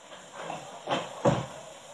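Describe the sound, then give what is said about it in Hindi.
A door is opened with two soft clunks about half a second apart over a faint background hiss. No one speaks. “बड़ी देर बाद दरवाजा खुला तुमने”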